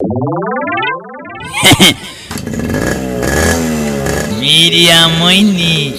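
A motorcycle engine revs hard, its pitch climbing and dropping through loud bursts after a short electronic sweep at the start.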